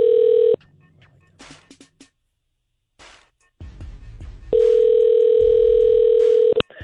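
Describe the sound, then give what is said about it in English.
A telephone call being placed: a steady dial tone, then a quieter stretch of clicks and brief dialing sounds, followed by a long, steady tone that cuts off abruptly. “So let's call Jeff. And hear him out.”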